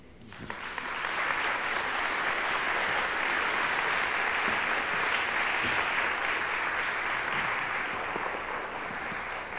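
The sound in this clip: An audience applauds to welcome a guest speaker, the clapping rising quickly to a dense, steady roar that holds for about nine seconds before easing slightly.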